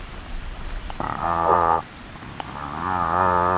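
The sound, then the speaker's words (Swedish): A human voice imitates the slow call of a cod with two drawn-out, low, buzzing grunts. The second is longer and swells louder toward its end. “En torsk, nu har den många olika läten, men du ska föra 2. Ett ljud är så här.”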